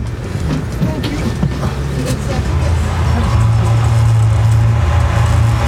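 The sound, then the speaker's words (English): A San Francisco cable car's brake is pulled hard as the car heads downhill, giving a loud grinding, rumbling roar that gains a sustained low droning tone partway through. “See, he's really pulling on that brake now.”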